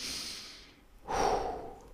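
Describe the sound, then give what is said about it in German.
A deep breath in and out during a guided meditation: a soft, airy inhale that fades, then a fuller, breathy exhale. It is quiet and heard alone, with no talking. “schließ deine Augen und atme tief ein und tief aus”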